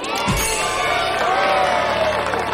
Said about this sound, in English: The tall tree lights up. Charles and Megan grin and applaud with the crowd.